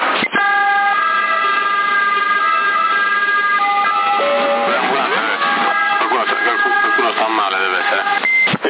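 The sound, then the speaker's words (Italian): An ambulance siren passes close by in Sassari, picked up over a CB radio channel. Its warbling tones sound loud and continuous, with a thin, band-limited quality. “C'è un'ambulanza in Kiwi. No, è proprio entrata qua dietro.”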